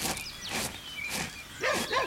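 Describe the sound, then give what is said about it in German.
A dog barks at a postman coming through the garden gate, giving a few short, rough barks with a whiny edge, the loudest near the end. “der hat einen bösen Hund. Vito heisst er.”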